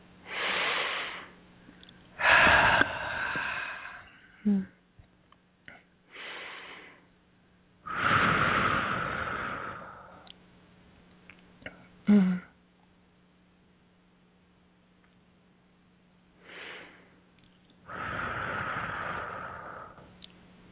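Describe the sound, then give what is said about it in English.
Slow, deep breaths are drawn in through the nose and let out through the mouth during a guided meditation. Several long, airy inhales and exhales are separated by quiet pauses, with a faint steady hum underneath. “so nice big breaths in through the nose and out through the mouth”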